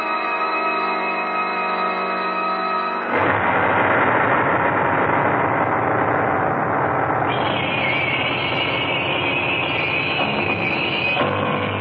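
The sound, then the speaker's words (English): A motor runs steadily and loudly with no break, a humming, tonal drone for the first few seconds before turning into a rougher, denser rumble that holds to the end. “Says there's got to be something done about this motor.”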